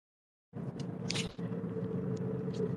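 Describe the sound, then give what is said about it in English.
Interior road noise from a moving car: a steady low rumble with a broad hiss cuts in after a moment of silence and continues evenly, with a brief dip and a few light clicks. “I'm driving right now”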